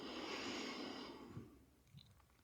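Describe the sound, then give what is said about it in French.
Slow, gentle breath drawn in through the nose, a soft airy hiss that holds for about a second and then fades away, faint and without voices. “Et une cinquième fois, nous inspirons doucement par le nez.”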